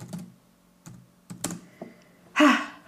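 Keys clatter on a computer keyboard as someone types an email to a customer service address, with sparse, separated taps and short clusters of clicks, ending in a louder, denser burst.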